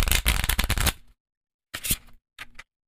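Playing cards are handled and dropped: a dense one-second flurry of crisp fluttering slaps, then after a pause two shorter, quieter bursts of cards hitting down.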